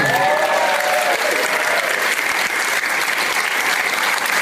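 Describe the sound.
A theater audience applauds to welcome the co-hosts of a movie event. Loud, dense clapping from a large crowd fills the whole stretch, with brief cheering voices near the start.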